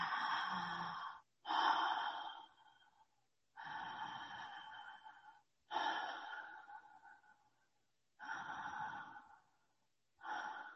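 Ujjayi breathing during yoga practice, a throat-narrowed, audible breath: about six long, breathy hissing strokes of steady loudness alternate with short silent gaps, with no talk.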